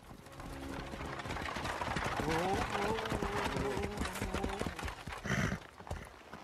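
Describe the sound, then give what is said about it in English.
Horse hooves clip-clop as a horse is ridden beside a river alongside a moving cart, a steady run of hoof beats mixed with other continuous sounds. “The cart and George, now riding on his horse, journey on beside a river.”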